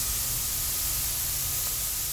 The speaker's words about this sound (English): A high-pressure pump in a nearby shipping container kicks on, and Nakaya's sculpture hisses to life.